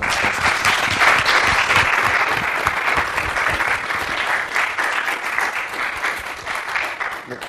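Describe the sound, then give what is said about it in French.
Audience applause at an entrepreneurship conference: dense, sustained clapping from a crowd that stays loud and steady throughout, easing only slightly toward the end. “Donc là, merci, on peut applaudir les...”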